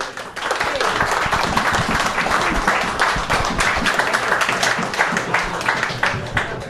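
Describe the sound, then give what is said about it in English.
A live audience at Iron Buffalo applauds, steady crowd clapping that swells quickly and stays loud and even for about six seconds before tapering slightly. “As a wise man once said, please, if you could be so kind, put your hands together to let the listening audience know that you're real.”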